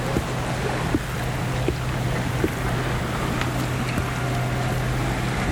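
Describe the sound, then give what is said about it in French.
Seaside ambience on the Estérel coastal road between sea and mountains: steady wind and washing water over a low, constant engine-like hum, with a few faint clicks scattered through. “Balade sonore entre la mer et la montagne.”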